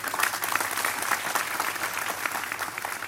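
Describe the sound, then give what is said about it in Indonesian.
Applause from an audience at a gathering, clapping to honour a man who helped fund a drama production. Dense, steady clapping fills the whole three seconds at an even level, with no talk over it. “Tepuk tangan untuk beliau.”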